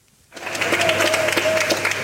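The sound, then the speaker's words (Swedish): Applause from relatives waiting at Tel Aviv's airport as passengers arrive from Dubai: dense, steady clapping bursts in after a moment of near silence and carries on without a break. “Med applåder, kramar och tårar tog väntande anhöriga emot sina nära och kära på Ben Gurion flygplatsen i Tel Aviv.”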